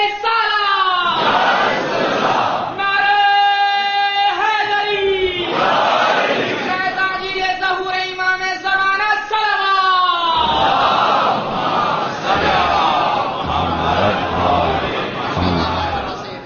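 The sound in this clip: A large crowd shouts together in unison, answering the Naara-e-Takbeer chant at a religious address in Lucknow. Loud, strongly voiced cries come in repeated bursts, with short gaps between them.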